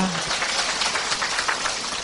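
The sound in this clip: Applause from the audience at a prayer-themed church gathering, a continuous, hiss-like wash of many hands clapping at a steady, fairly loud level.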